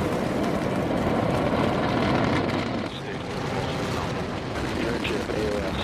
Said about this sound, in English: 2, 1, 0. Ignition. Vehicle is pushing down range.